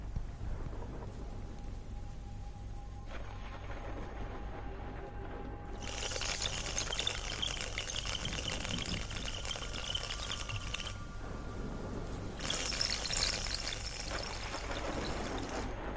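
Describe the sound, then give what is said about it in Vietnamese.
Heavy rain from a storm hisses steadily and fairly faintly, swelling into louder, brighter downpours in the middle and again near the end. “Mưa bão thế này, không biết là mai có tạnh nữa không chứ lệ.”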